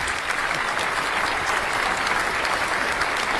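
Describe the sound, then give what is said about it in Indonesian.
Audience applause at a quiz competition, a dense, steady wash of many hands clapping at an even level for the whole stretch, with no talk over it. “Oke, tepuk tangan dulu Bapak Ibu.”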